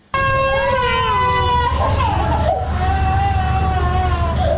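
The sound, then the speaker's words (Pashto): Hospitalized children sick with diarrhea cry in a provincial hospital in Tarinkot. The loud, continuous wail starts abruptly, wavers up and down in pitch with strong harmonics, and holds to the end. “دا جړاوی د هغه ماشومانو دي چې اوس مهال تازه د نسناستي او یا هم د ایسحال په ناروغي اخته دي”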